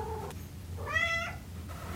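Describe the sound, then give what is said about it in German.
A tomcat gives a single meow, a brief tonal cry that rises and then falls slightly, faint over a low, steady background hum. “Hier haben wir unseren Kater, den Tapsi.”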